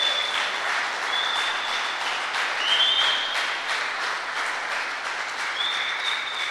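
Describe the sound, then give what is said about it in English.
Steady applause from a Sunday morning church audience welcoming a visiting guest, a continuous even patter of many hands at moderate loudness. “Let's give him a hand, and let's welcome him this morning.”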